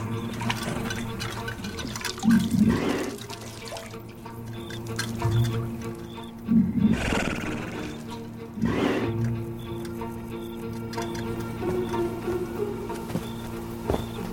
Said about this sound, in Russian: Верблюд пьет воду.